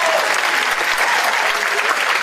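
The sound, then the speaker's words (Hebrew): An audience applauding, a dense, steady wash of clapping at even loudness throughout the short stretch, with no break or voices standing out. “קודם כל כפיים, רבותיי”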